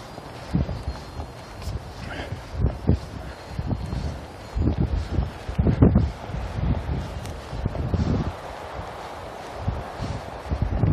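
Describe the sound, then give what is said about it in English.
Wind blowing outdoors on a cold day during a workout, a low, gusting rumble buffeting the microphone, rising and falling under a person talking, with faint steps mixed in. “wind is blowing right through me”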